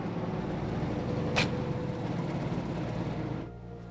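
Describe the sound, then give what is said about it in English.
A car driving up, a steady, fairly loud engine rumble with road noise that carries throughout, then eases off slightly toward the end. “Beverly is pacing outside as Sandra drives up.”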